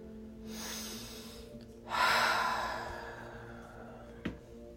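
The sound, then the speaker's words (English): A deep, steady inhale through the nose, a brief pause, then a longer, louder exhale through the mouth that gradually fades. A small sharp click follows near the end. “take a moment to take a deep breath in through your nose and exhale out through your mouth”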